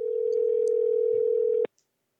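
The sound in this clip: A telephone dial tone sounds while a call is being placed: a steady, unbroken hum lasting over a second and a half, then cut off abruptly with a click and a faint tick.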